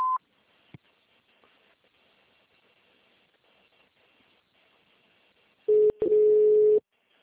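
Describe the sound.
Electronic beep tones from an automated telephone service line: a short, higher beep at the very start, then after a quiet stretch a longer, steady, lower tone with a brief break near its beginning.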